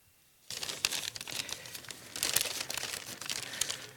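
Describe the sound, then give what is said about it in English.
A plastic bag is ripped open, with crinkly tearing and crackling that begins abruptly after a moment of quiet, then continues in irregular bursts and grows louder in the second half. “There's this little package. If you rip it open, and I hope that you will, inside you're going to find a couple plastic pieces. Hope your bag comes open easier than mine.”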